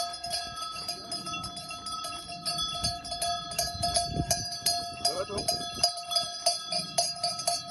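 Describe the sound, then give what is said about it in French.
Small bells tinkling on ewes as they walk through town streets: a continuous, bright jangle of many bells ringing out of step, over low clattering steps. “Alors ce tintement de clochettes, c'est le bruit de vos brebis, le jour de la rentrée dans les rues de la ville où vous vivez.”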